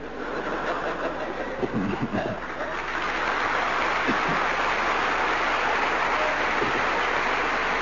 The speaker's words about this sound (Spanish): Aplaude la gente contenta de no ser un balde.